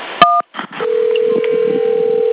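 A single short telephone keypad tone from pressing 1 during a call to a police department's automated line, followed after a brief gap by a long, steady telephone tone.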